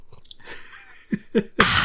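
Coffee being sipped: a few soft, brief mouth and swallowing noises, then a louder, breathy slurp that holds steady at the end.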